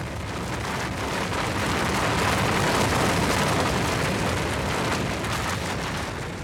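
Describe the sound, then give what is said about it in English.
A rumbling earthquake sound effect: a dense, loud, continuous roar that swells slightly in the middle and never lets up, with a gritty, rain-like texture over the low rumble. “With the last bit of power I have given you, create an earthquake and end their bloodshed.”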